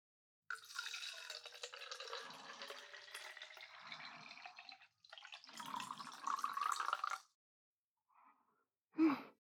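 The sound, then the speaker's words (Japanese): Hot water is poured from a kettle into a teapot holding tea leaves: a faint, steady splashing trickle lasting several seconds, with a brief break midway before the pour resumes. “ティーポットに茶葉を入れて、お湯を注ぐ。”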